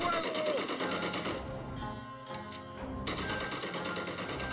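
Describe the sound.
Rifles fired by a firing squad of soldiers: a dense, loud, clattering volley of rapid shots that thins briefly midway, then returns at full strength.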